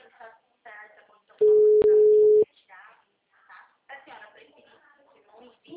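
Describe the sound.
Telephone ringing tone on a call: one steady, low, level beep lasts about a second, with people talking before and after it.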